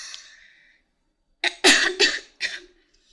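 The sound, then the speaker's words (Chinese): Harsh coughing from someone choking on their own saliva: a quick burst of several rough, breathy coughs in close succession, loud and abrupt, with no speech. “没事儿，我喝口水，被我自己的口水呛到了。”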